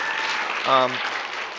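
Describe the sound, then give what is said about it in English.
Short burst of clapping from a church audience, with a brief voice rising over the hands midway before the applause carries on. “So, yes, clap. Yeah, good to have him back.”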